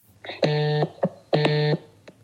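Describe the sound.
An outgoing telephone call rings out with two buzzy electronic tones, each about half a second long and separated by a short gap, holding a steady pitch over faint background noise.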